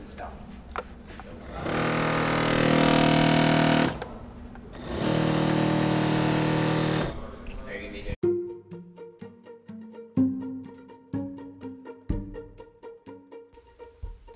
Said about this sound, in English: So what you heard there was the Wahoo Kicker Climb Front Companion Unit, as I call it.